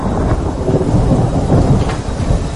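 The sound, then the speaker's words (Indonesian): Thunder rumbles during a heavy rainstorm. The low roll is loud and continuous, blended with the dense hiss of pouring rain, with no voices. “Beberapa kali petir pun menggelegar di udara, membuat suasana semakin dingin.”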